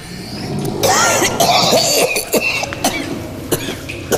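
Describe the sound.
Man gagging and coughing: a loud, drawn-out retching strain, then a few short, harsh coughs and throat clearing spaced apart, with no speech.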